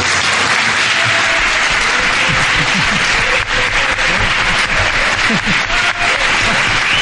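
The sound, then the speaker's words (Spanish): Loud, sustained applause from a live audience gathered in Crevillent, dense clapping at an even level throughout with no speech on top. “Os pido un fuerte aplauso.”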